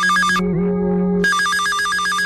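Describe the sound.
An electronic telephone ringtone for a live phone-in programme, a loud warbling run of rapid repeated tones that gives way briefly to a lower, plainer tone midway, then resumes its quick pattern.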